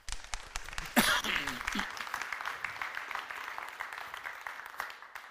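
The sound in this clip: Audience applause welcoming a speaker at an evening lecture: dense, steady clapping fills the whole clip at an even level, with a few faint vocal sounds mixed in near the start.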